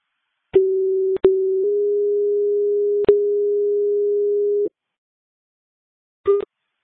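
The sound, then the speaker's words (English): A steady low telephone line tone sounds while a call is placed. It is broken by sharp clicks and holds for about four seconds before cutting off, and a brief click-marked burst of tone follows after a pause. “I'm just going to phone UNC Morgan and have their record in the mail.”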